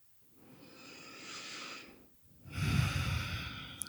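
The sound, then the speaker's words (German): Deep breathing in and out during a relaxation breathing exercise: two slow, airy breaths with a short pause between them, the second louder and rougher. “Mach ein paar tiefere Atemzüge in den Herzraum ein und aus.”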